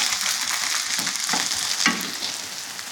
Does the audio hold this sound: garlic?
yes